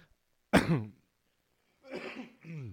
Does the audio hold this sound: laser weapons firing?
no